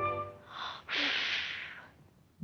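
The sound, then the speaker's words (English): Animals sneezing from a cloud of dust: a short, snorting vocal sound followed by a sharp, breathy sneeze burst that trails off, faint overall. “Animals sneeze from a cloud of dust.”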